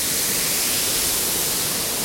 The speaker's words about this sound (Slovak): No, naozaj som sa nemýlil, vodopád má skutočne vody dosť.